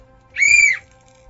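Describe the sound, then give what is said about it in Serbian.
A referee's whistle signals the end of a match with one short, shrill, steady blast, clear and alone, followed by quiet. “Nadam se da sada nisu iskočili predajnici od ovog sudijskog zvižduka.”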